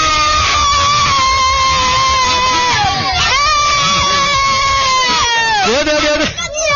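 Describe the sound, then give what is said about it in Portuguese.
Children of about seven to eight years old shout and scream together in support of the Inter football club, a loud, sustained high-pitched group cheer that runs through the whole clip. “Tu torce pro Inter. Tu é colorado? Quem é do Inter dá um gritinho aí.”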